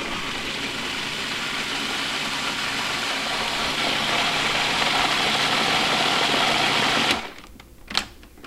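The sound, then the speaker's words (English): A blender motor whirs steadily while pureeing harissa sauce made with roasted red pepper, tomato paste, fresh mint leaves and orange. A loud, even drone runs for about seven seconds, then stops abruptly, followed by a couple of brief knocks. “So I'm gonna puree this.”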